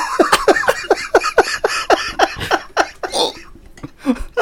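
A person coughing and choking in a rapid run of many harsh, breathy bursts, loud and fairly even in rhythm, thinning into a few scattered gasps toward the end.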